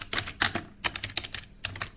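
Quick keystrokes on a computer keyboard come in irregular clusters of light, faint clicks, heard alone.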